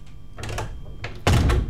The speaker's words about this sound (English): Okay, so you cram in, it's not that big, cram in, that's right. Okay, now you shut the door.